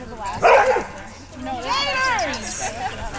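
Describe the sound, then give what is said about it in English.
Dogs bark during a chaotic filming session with a large pack of dogs of all shapes and sizes: one loud, sharp bark, then a stretch of wavering, whiny yelps and calls. “So after a little less than a half hour of chaos, contestants got their canine companions back on leash.”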